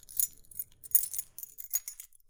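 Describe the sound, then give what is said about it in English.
Keys jingling in a few short metallic bursts of bright, high clinking, with brief pauses between shakes; fairly quiet and heard alone. “Now, what did you hear? Keys? Right. Keys jingling.”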